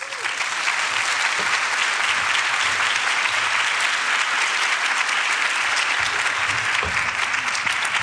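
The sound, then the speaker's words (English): An audience at a women's leadership conference applauds as a speaker is introduced. The clapping is dense and even, and it stays at full strength throughout. “Please put your hands together for Courtney Lynch.”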